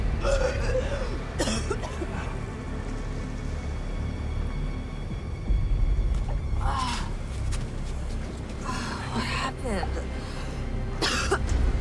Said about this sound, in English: She coughs out water, then sits up.